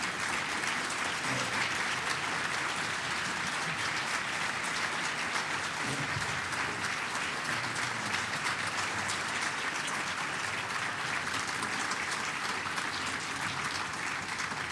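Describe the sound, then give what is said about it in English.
Long, steady audience applause at a Kentucky event welcoming CDC head Dr. Tom Frieden, continuous even clapping that holds at a constant level throughout. “I want you to give a great, warm Kentucky welcome to Dr. Tom Frieden, head of the Center for Disease Control and Prevention.”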